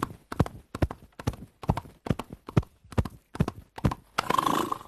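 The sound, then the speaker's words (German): Foley artist slapping his thighs as a sound effect, sharp paired slaps in a steady galloping rhythm like horse hooves, many beats in a row, ending with a short noisy burst. “Also einfach so, du haust dir auf die Schenkel und das machst du beruflich. Ja gut, ich hau mir nicht nur auf die Schenkel”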